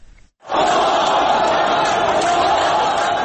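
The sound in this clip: A crowd of Egyptian protesters shouts battle cries as police special forces storm their position, a dense roar of many voices that bursts in after a brief quiet opening and stays loud and steady to the end.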